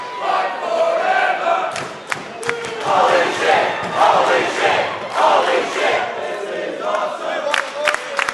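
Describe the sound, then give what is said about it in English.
Wrestling crowd chanting and shouting in loud, surging waves, many voices rising and falling together with a few sharp claps breaking through. “Half of the fun of watching the show is the audience participation. It's quite infectious. Some reactions have clearly evolved over time. There's chants about the match.”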